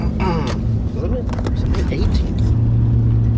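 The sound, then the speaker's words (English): Low, steady engine and road rumble from a car being driven, with people talking over it throughout. “I'm just driving around.”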